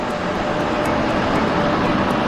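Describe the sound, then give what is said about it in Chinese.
Loud engine roar of a large tank-like vehicle with wheels 1.5 meters across as it drives up, a dense, continuous rumble holding steady throughout with no voices. “伴随着巨大轰鸣，一辆形似坦克的大车开了过来。”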